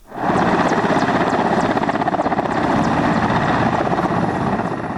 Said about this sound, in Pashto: البته دغه راپور د هلیکوپټر په غږ پیلېږي.